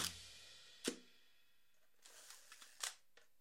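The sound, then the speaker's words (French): A Hasselblad medium-format camera shutter firing, with a few sharp mechanical clacks and a scatter of small ticks between them, crisp and dry against near silence. “Là, on entend un Hasselblad. Hasselblad, donc, autre marque prestigieuse qui a fait de véritables petites merveilles en moyen format”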